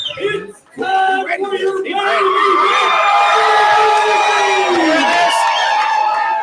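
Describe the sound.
A crowd roars at a live fight event. After a brief lull the cheering surges and holds loud and steady, full of whoops, yells and high shouts.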